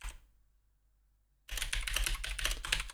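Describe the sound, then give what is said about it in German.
Rapid keystrokes on a computer keyboard. A dense, continuous clatter of clicks starts suddenly after about a second and a half of near silence and keeps going at an even, busy pace. “Ich muss hier noch was auf meine schlaue Liste schreiben.”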